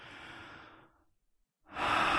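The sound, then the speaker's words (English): Breathing close to the microphone: a soft, airy exhale fades away, a short silent pause follows, then a louder, rushing breath begins. “And now I'm next to you. You can feel my breath”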